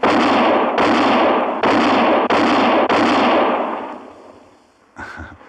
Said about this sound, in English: Yeah, that's mighty fine shooting, Mr. Kendall.